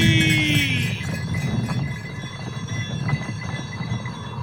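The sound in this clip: Horses gallop at speed, their hooves drumming in a dense, continuous clatter over a steady low rumble, with many quick hoof strikes and no voices.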